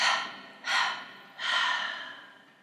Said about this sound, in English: you're going to breathe in one take and as you exhale, break it down into 3. So it goes like this.